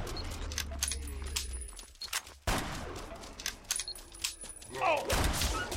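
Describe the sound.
Gunfire in a zombie video game: a burst of rapid shots over busy, dense game noise, loud throughout with a brief gap midway and a heavier flurry near the end.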